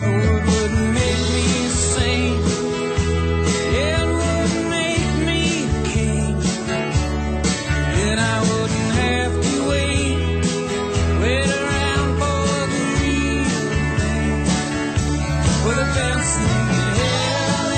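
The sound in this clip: A song by a male singer with full band backing. It plays loud and continuous, dense with layered instruments and a steady beat.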